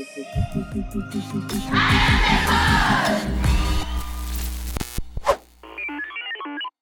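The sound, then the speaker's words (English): Crowd noise at an International Women's Day celebration at a primary school in Kakuma refugee camp: a loud, dense mix of many voices and commotion that swells and holds, then thins out toward the end. “Here in Angelina Jolie Primary School in Kakuma Refugee Camp, we are celebrating the International Women's Day.”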